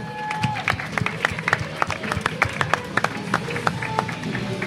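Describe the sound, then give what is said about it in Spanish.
Scattered applause from a small group after a quiz tiebreaker question, heard as many sharp, uneven claps over a low murmur of voices, never building into a dense ovation. “¡Un aplauso!”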